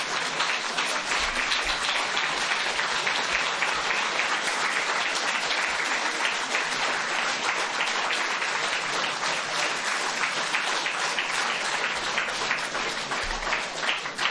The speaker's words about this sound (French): Voilà, c'est une ovation.